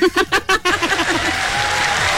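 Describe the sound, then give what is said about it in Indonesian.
Applause from an audience after a song: a voice sounds briefly at the start, then many hands break into a steady, loud wash of clapping that carries on to the end. “kita bagi tepukan gemuruh”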